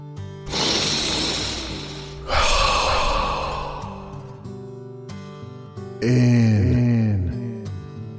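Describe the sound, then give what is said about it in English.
Slow, deep exhaling breaths during a guided breathing exercise: two long, loud, airy exhalations one after the other, then a quieter pause before a voiced, falling sigh. “Bit longer. Exhaling out the toxins, the bad thoughts.”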